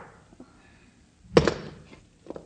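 Gunshots ring out in a radio drama: one loud, sharp blast stands out over a quiet background, with a few fainter knocks before it and another faint pop near the end.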